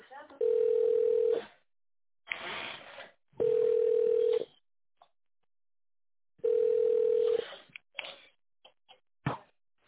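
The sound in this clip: Telephone ringback tones while a business call is transferred: three steady low tones, each about a second long, separated by short noisy bursts and followed by a few sharp clicks.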